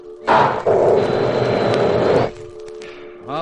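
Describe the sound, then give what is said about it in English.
Deflector rockets firing on a spacecraft: a loud, steady roaring hiss lasting about two seconds over a constant low hum. It starts with a short burst, stops abruptly, and a brief voice follows near the end. “Firing deflector rockets.”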